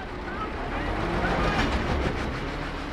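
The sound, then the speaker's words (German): A fully loaded truck reverses up a wet, steep, narrow ramp with its wheels spinning: a dense, loud, steady engine roar and rushing noise that swells slightly midway. “Im Minutentakt treffen vollbeladene Lkw ein. Nacheinander müssen sie rückwärts die schräg stehende enge Rampe hoch. Die Rutsche ist nass, da drehen die Räder schon mal durch.”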